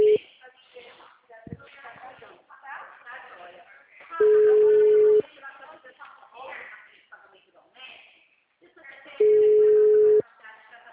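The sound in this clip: An outgoing telephone call's ringback tone sounds as two long, steady single-pitch beeps of about a second each, spaced several seconds apart, while a person talks in the gaps between them.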